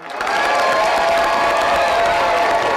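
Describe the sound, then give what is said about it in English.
Friends and family cheer and applaud as graduates of a GED program walk the stage at Wichita State's Hughes Metroplex, a steady, loud wash of crowd noise lasting about three seconds. “Friends and family cheered as graduates walked the stage at Wichita State's Hughes Metroplex.”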